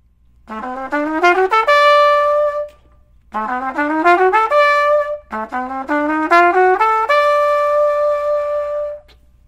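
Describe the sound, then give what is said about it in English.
A melodic instrument plays a half diminished scale from concert A up to F sharp and then an F sharp, A and D first inversion D major triad. The phrase is played three times, each a quick rising run that ends on a held note. “So we're going to play that whole half diminished scale that starts on concert A.”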